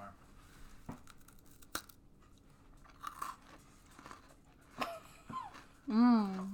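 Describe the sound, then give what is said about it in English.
Crunchy cookies are bitten and chewed close to the microphone for ASMR, giving a few sharp, faint crisp snaps spread over a quiet background. A short hum-like voiced sound follows at the very end. “ASMR. Cookies.”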